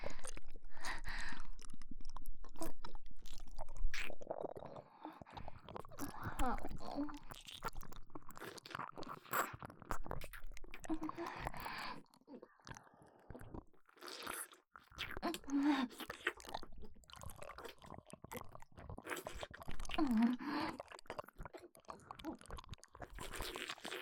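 Chewing and crunching of food eaten raw, with many soft, irregular bites and squishy mouth sounds continuing steadily throughout.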